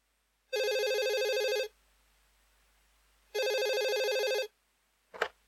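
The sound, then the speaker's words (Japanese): A telephone rings twice in Sue and Michiko's room, each ring a long, steady electronic warble with a pause between, followed by a brief short sound. “A phone rings in Sue and Michiko's room.”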